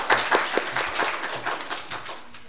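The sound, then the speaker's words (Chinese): An audience at a church worship service applauds to encourage a speaker, giving steady, dense clapping that gradually fades over a couple of seconds. “我哋鼓掌要鼓勵佢好冇？”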